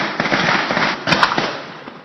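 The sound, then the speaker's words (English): Police gunfire from officers of several departments shooting at a boat where a suspect hid at the end of a manhunt: a dense, loud crackling volley of many overlapping shots, continuous for about two seconds. “officers from several departments opened fire on the boat where Jahar Tsarnaev was hiding”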